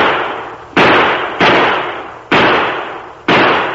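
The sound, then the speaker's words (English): Four warning gunshots fired overhead, each a sharp, loud bang that fades in a long tail. The shots are spaced about a second apart, with no voices between them. “My shots didn't come within a dozen feet of him. That was a warning.”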